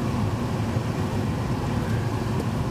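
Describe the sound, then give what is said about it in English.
A car engine runs steadily, giving a continuous broad rumble with a hissy noise layer that lasts the whole stretch, with no talking over it. “Because you have the engine running.”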